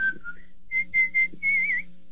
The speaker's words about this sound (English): No, I whistle. Could you give me a little demo?